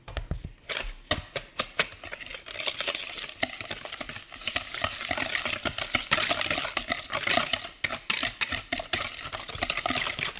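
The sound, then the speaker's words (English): Eggs and sugar are whisked together in a bowl. The whisk makes many quick, uneven clicks and scrapes that rise and fall in loudness, with no voices. “Now to the eggs, I'll add some sugar. I'll give it a whisk.”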